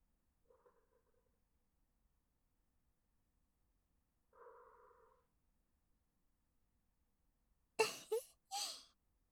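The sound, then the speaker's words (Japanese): Soft breaths blown into a listener's ear for ASMR: a few short, airy puffs clustered near the end, preceded by faint murmured hums separated by long stretches of near silence. “耳、ふうふうしながらお体触っていきますね。”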